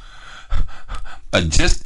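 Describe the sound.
A sharp gasp for breath after a long stretch of speaking: softer voiced sounds give way to a loud, rough intake of air in the last half second.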